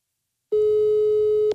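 Telephone ringback tone heard while calling someone who does not answer, a single steady mid-pitched beep lasting about a second, clean and alone after a moment of silence.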